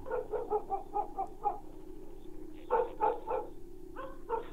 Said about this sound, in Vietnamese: Đâu đó văng vẳng từ bên làng, tiếng chó cắn ma cứ vang lên.